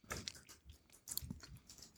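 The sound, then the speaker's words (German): Crunchy potato chips are chewed, three chips taken at once, giving faint, irregular bursts of crisp crackling bites with short pauses between them and no talk. “ich habe ja vorher nur einen Chip probiert, das habe ich mal 3 Stück genommen, auch um diesen Crunchy-Effekt zu haben”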